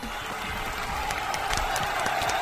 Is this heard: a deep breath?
no